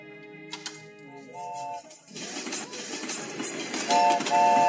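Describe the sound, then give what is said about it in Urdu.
A train sound effect on a quiz game show, played as a lever sets the train moving: short whistle-like tones, then a chugging clatter of rhythmic bursts that grows louder, with whistle tones returning near the end. “اب train کا control آپ کے ہاتھ میں ہے, آپ نے liver کھینچنا ہے, ٹرین چلنا شروع ہوگی, بریک لگائیں گے, ٹرین رک جائے گی.”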